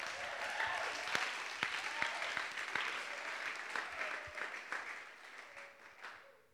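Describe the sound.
Audience applause welcoming a speaker to the stage at a Discipleship Training School gathering: dense, steady clapping that holds strong throughout, then thins and fades toward the end.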